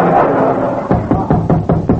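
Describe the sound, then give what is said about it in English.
A knock at the door: a quick, evenly spaced run of firm knocks, several in a row, follows a stretch of steady background noise. “Will you answer the door”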